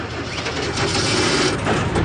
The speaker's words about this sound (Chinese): 黑木斯开动了摩托车，两个人又向相反的方向奔去